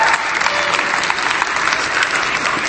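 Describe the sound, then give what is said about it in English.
Audience applause: dense, steady clapping from a crowd that holds an even loudness from start to finish. “Can everybody give Joey a little hand?”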